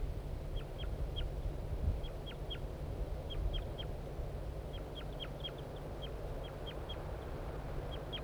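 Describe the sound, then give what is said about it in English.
A male bird gives flight calls from a tree near the nest where the female sits. Many short, thin, high chips come in small clusters, faint over a steady low background rumble. “I think the female's on the nest and the male's giving flight calls from the tree nearby.”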